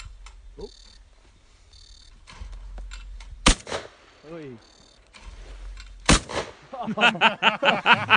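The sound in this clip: Shotgun shots while shooting clay targets: two sharp, loud blasts a few seconds apart, with people talking and calling out around them.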